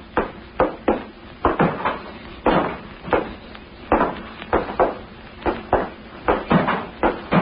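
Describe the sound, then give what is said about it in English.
A loose open hatch bangs on a ship, giving many irregular, hollow knocks of similar loudness throughout, with no voices. “Listen. Sounds like something's loose. There is. Let's see if we can locate it.”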